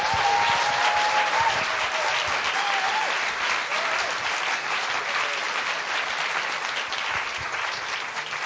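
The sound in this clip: Sustained audience applause welcoming a preacher at an evening gathering: dense, steady clapping that stays loud and even for the whole stretch, with no voices standing out.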